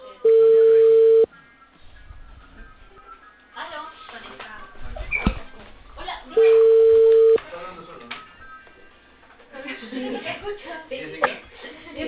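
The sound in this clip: Ringback tone on an outgoing telephone call, with two steady single-pitch rings about five seconds apart, each lasting roughly a second. Faint background voices and line noise fill the gaps between them.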